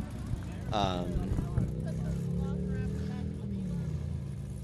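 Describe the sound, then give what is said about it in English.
A cammed V8 Camaro pulls up at a cars-and-coffee meet: a low, rough engine rumble holds at steady loudness throughout, with voices over it. “Now here comes the guy in the V8 to show everyone up. He said that the V6 burnout and rev was cute, but I'm going to pull up my cammed Camaro.”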